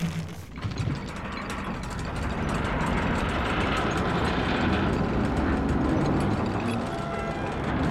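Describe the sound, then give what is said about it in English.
Guards roll in a new gate on wheels with a continuous, grinding rumble. Many fast clicking, ratchet-like ticks run through it, and it stays steady and moderately loud throughout. “Okay, the guards are rolling it in now. It's even on wheels.”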